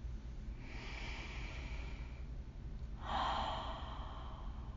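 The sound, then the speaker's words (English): Deep breaths in and out, taken slowly at an unhurried pace: two long, soft, airy breaths, the second a little louder and fuller, over low background noise. “You can start by taking 3 to 4 solid deep breaths in and out at your own pace, watching that movement of breath.”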